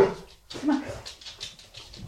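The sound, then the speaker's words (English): A Chesapeake Bay Retriever dog vocalizing outdoors in a few short, loud bursts separated by brief pauses, with a light patter of movement in between. “She's a Chesapeake. Chesapeake. Yeah. Chesapeake Bay Retriever. Yep. Stop. She's very loud.”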